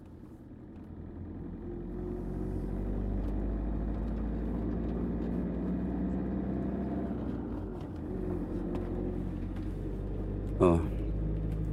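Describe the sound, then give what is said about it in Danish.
Car driving along a small road through an old harbour district, with a steady low engine rumble and road noise throughout and a brief sharper burst near the end, while a man talks over it. “Jeg kan se, at der i hvert fald er 30 km til storbyen Nibe herfra. Kører igennem det gamle havnekvarter.”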